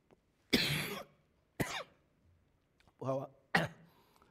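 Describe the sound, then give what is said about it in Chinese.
A person with a cough coughs in four separate harsh bursts spread over a few seconds, one of them voiced and throaty, with quiet gaps between them. “不好意思啊，给个人说，因为我有点咳嗽”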